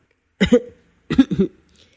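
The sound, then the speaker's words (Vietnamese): Two light coughs come one after the other, each short and soft with a husky, voiced quality, separated by a brief silence and heard alone. “Hắn ho nhẹ hai tiếng rồi nói:”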